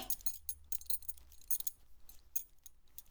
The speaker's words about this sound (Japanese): じゃあ、まずはベルトを外して、